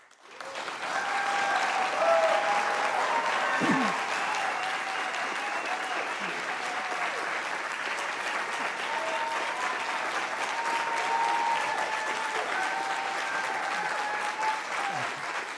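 Audience applause at the 2020 vice presidential debate as Kamala Harris and Mike Pence are introduced: sustained, even clapping that swells in the first two seconds and holds steady for about fifteen seconds.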